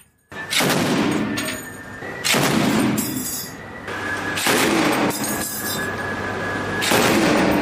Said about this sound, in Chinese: 舱面火力组使用重机枪对可疑小艇进行警告射击。